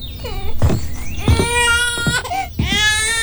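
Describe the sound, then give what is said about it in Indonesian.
An infant cries hard in a few loud, high-pitched wailing bursts with strained, ringing tones and brief gasping breaks between them, the crying carrying on without settling. “Dari tadi tidak berhenti menangis.”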